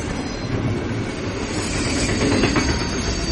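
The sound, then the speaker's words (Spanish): A freight train rolls over a bridge with a continuous heavy rumble and a steady clickety-clack of wheels on rails, holding loud and even throughout with no voices. “Se asoma y observa el puente. Pasa un tren de mercancías.”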